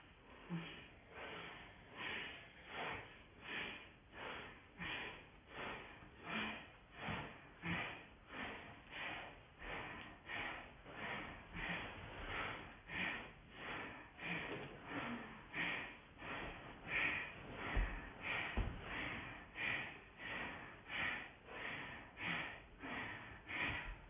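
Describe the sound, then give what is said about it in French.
Forceful Bhastrika yoga breathing, rapid bellows-style breaths pumped through the nose in a steady, fast rhythm. Many sharp, even exhalations repeat across the whole stretch with no talking. “avec la main droite près du pied gauche avec le pouce gauche en l'air, on va se stabiliser un peu ici et faire un souffle de Bastrika.”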